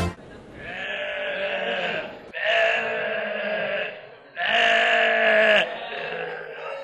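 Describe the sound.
A sheep kept for the Eid feast bleats in three long, loud, wavering cries of about two seconds each, the third the strongest, followed by a softer trailing bleat.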